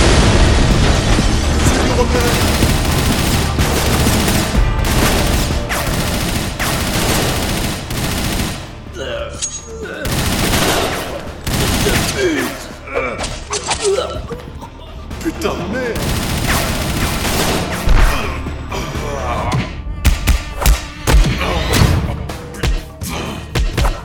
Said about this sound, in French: C'est une bombe!